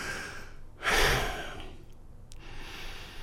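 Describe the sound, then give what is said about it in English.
Deep breath taken to ease tension, heard as one loud, airy breath with a rushing, sigh-like quality that rises and then fades into a quiet hiss, with no talking. “take 2 deep breaths. Now, I'd like you to do that right now while you're listening.”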